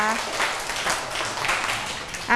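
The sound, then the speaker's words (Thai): Children clapping after a performance of Thai ceremonial music played for the Royal Ploughing Ceremony, a brief patter of applause set between a voice talking at the start and at the end. “เด็กๆครับปรบมือให้กับการบรรเลงชุดนี้ด้วยนะคะ”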